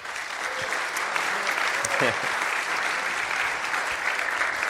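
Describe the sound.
A church audience applauds to welcome a missionary to the Philippines, a steady, dense patter of many hands clapping that holds at an even level throughout.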